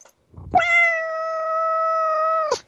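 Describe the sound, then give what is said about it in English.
A domestic cat meows while sitting on its owner's lap: one loud, drawn-out meow held at a nearly steady pitch for about two seconds, opening and ending with brief breathy noise. “Is that your cat or is that you? That's my cat.”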